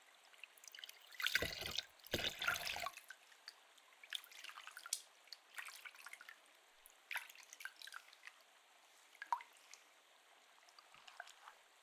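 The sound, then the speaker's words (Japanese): Water splashes and drips as treatment is rinsed out of hair. A couple of louder splashy bursts come early, followed by many faint, scattered drips and trickles, all at a soft level. “トリートメントが髪に馴染んだようですので、洗い流しますね。”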